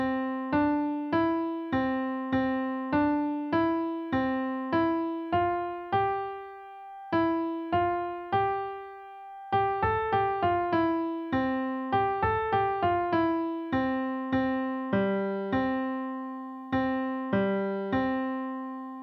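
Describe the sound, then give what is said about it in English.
A French lullaby melody in C major plays as clean, bell-like pitched notes, each struck and then decaying. Notes come at a steady pace with a couple of short pauses, many notes in all, softly and with no voices. “one song that I found that uses the fourth note a fair amount is Frère Jacques, or Are You Sleeping, in the English translation”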